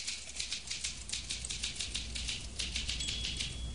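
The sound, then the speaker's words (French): Rapid keystrokes from a woman typing on a typewriter, many light, sharp clicks in an uneven, steady rhythm over a continuous background hiss, with no voices. “Qu'est-ce qu'elle fait ? Elle tape à la machine.”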